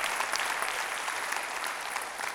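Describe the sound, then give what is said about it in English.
A church audience gives a team one more round of applause: thick, continuous clapping from many people, steady and fairly even throughout a couple of seconds. “you can give them one more round of applause”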